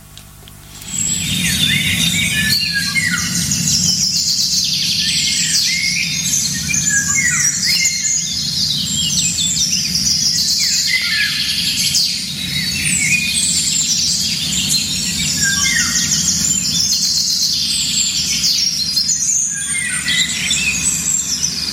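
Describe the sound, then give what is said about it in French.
Several birds sing together outdoors, a dense, continuous mix of high chirps, whistles and trills that overlap throughout, with a low steady background hum beneath. “vous allez très vite voir que c'est un chant d'oiseau. Ça se passe quelque part dans la nature. Il y a plusieurs oiseaux.”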